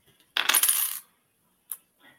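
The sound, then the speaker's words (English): Metal charms pulled out for a reading: a bright metallic jingling clatter lasting about half a second, followed by a single short clink and a faint soft rustle. “I'm going to pull some charms.”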